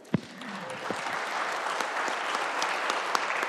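Applause in a legislative House chamber as members welcome a group of guests; a sharp first clap opens it, then steady, moderately loud clapping continues to the end.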